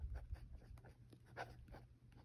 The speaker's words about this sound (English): I'm going to write this down.